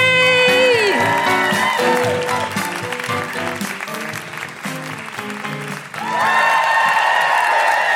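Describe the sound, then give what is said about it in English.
Applause and cheering from a live comedy audience welcoming a performer to the stage. Steady clapping runs throughout, with high whooping cries rising over it at the start and again near the end. “Please put your hands together and make incredible welcoming woo-hooing noises for the wonderful Celia AB!”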